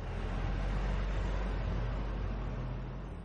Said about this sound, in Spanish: La calle está vacía. Pasa un coche.